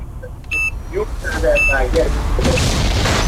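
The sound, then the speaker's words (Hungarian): In a radio game, a bomb explosion sound effect plays: a few short electronic beeps, then a loud, broad boom that swells and rumbles on. A voice talks over the beeps. “meghallottad a bumolást, őszintén szólva, mire felrobbant”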